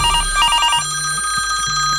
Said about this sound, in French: Il y a quelqu'un quelqu'un qui nous appelle. Ah, allô, allô Ah, attention, faut que je réponde.